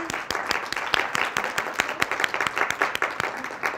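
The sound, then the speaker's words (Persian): A small audience claps for the participants of a class, producing many distinct hand claps in an uneven patter at a steady moderate level. “یه دست براشون بزنی.”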